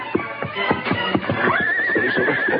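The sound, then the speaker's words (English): An approaching horse gallops with fast, steady, pounding hoofbeats throughout. Midway a long, high whinny rises and carries on over the hoofs. “Then there only a short time when he heard the fast beat of galloping hoofs approaching.”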